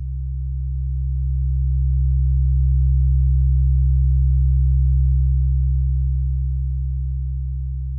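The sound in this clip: A low-pitched pure test tone, a bass tone entering a room, hums steadily on one pitch with no other sound. It swells gently toward the middle and eases off slightly at the end.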